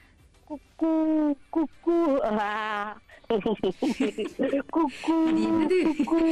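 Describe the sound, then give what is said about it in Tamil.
Voices imitate a koel's call and a baby's laughter: loud, hooting cries with wavering pitch mixed with quick, choppy laugh-like bursts, heard alone without ordinary talk. “உங்களுக்கான sound என்னன்னா, குயில் கூவுற சத்தமும் குழந்தை சிரிக்கிற சத்தமும். ஒரு குழந்தை சிரிச்சுட்டே இருக்கு, அப்ப வந்து குயில் கூவுது.”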